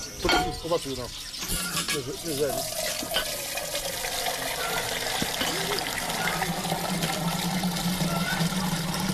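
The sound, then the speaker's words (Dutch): Milk pours into an old-fashioned metal milk can at a dairy in Nigeria, a steady rushing, splashing stream that runs throughout, with voices talking over it near the start. “De melk gaat in een ouderwetse metalen melkkan, zoals wij vroeger ook hadden.”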